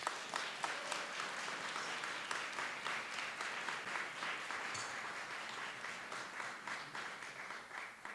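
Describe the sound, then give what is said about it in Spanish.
Audience applause at a church concert in Montejo de la Sierra, a long, even roll of many clapping hands that runs for about eight seconds at a soft, steady level. “Le damos un fuerte aplauso.”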